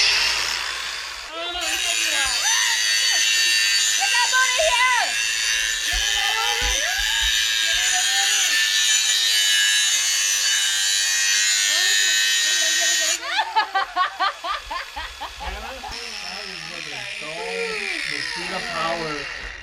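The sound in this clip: A worn grinder throws sparks in a small studio, giving a loud, sustained, high-pitched grinding whine for about eleven seconds under people talking. It then cuts off while the voices carry on.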